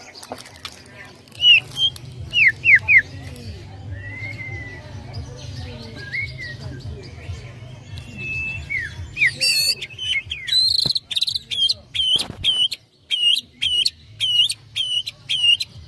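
A canary sings in varied high chirps, whistles and quick trills, then shifts to a rapid series of sharp, repeated bright notes in the latter half, over a faint low hum.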